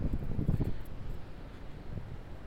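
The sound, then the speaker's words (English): Wind blows outdoors in Astoria and buffets the microphone with a steady low rumble and uneven gusty swells. No voices are heard. “It's pretty windy right now.”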